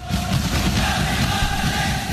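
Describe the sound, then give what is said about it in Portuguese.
Football fans roar in celebration of Malaysia's 2-0 win over Indonesia in an Asian qualifying match. Loud, dense crowd noise with massed voices holds steady throughout, without a break. “a Malásia derrotou a Indonésia por 2-0. Eu vou ler exatamente como tá aqui. E saca só a festa da torcida.”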